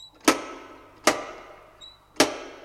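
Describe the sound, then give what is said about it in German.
A wrought-iron door knocker strikes a gate three times, each knock a sharp, heavy metallic bang that rings briefly before dying away, with gaps of about a second between blows and no voices. “Durchaus nicht mutig, aber todmüde bewegte ich am Tor einen schmiedeeisernen Türklopfer.”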